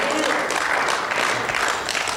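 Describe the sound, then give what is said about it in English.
A church audience claps loudly, a dense and steady burst of applause lasting a couple of seconds. “You can clap for Jesus.”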